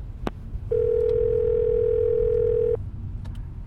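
A telephone dial tone sounds while a call is being placed. After a brief click, the single steady tone holds for about two seconds and then cuts off abruptly.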